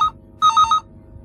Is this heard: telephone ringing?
yes

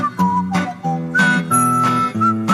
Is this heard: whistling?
yes

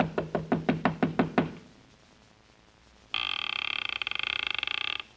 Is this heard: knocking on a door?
yes

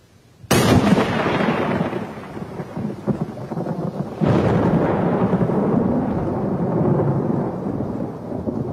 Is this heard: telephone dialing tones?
no

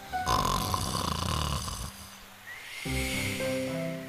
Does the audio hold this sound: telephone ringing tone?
no

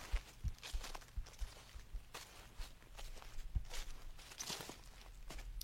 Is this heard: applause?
no

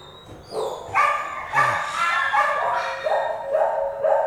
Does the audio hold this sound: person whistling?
no

